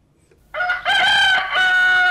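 A rooster, head of a chicken yard, crows once in a long, loud, harmonic call that holds steady and then tapers slightly, heard alone.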